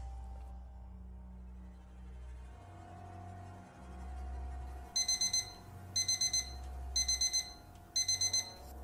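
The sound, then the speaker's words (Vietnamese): An electronic alarm clock rings in four bursts of rapid, high-pitched beeps, each burst a quick string of pulses about a second apart, following several seconds of low, droning hum. “Tiếng chuông đồng hồ báo thức vang lên.”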